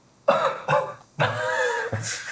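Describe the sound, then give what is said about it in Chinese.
A person breaks into a fit of four harsh, throaty coughs. The first two are short and close together, the third is drawn out and rasping, and a final sharp bark ends the run. “又咳嗽。”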